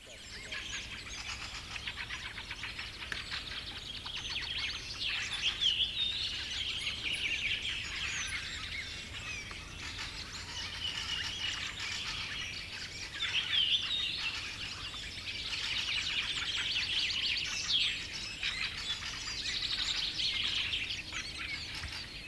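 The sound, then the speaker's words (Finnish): Fieldfare calls: harsh, dry chattering notes repeated in many bursts throughout, fairly faint and almost continuous, with no voices. “Räkätti rastas.”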